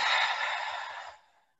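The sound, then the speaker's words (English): One long, forceful breath out through the mouth, like blowing out a candle, as part of a deep-breathing exercise. A strong airy rush holds for about a second, then quickly fades to silence. “Hold it, and then really breathe out as like a big breath, like you're blowing out a candle.”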